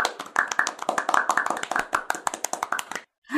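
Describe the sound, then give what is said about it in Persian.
People clapping their hands in a dense, quick run of many overlapping claps that lasts about three seconds and then stops abruptly. “آفرین این دفعه دیگه برای چی دست زدین”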